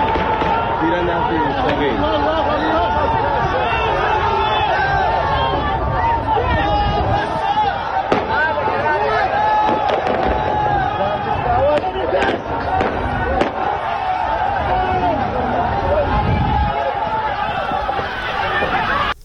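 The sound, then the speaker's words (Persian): Gunfire during a street protest at a police station in Zahedan, Iran: several sharp cracks cut through a loud, continuous crowd din of shouting and chattering voices. “همطور که گفتم صدای تیراندازی رو توی این ویدیو میشنویم که خیلی هم زیاد هست”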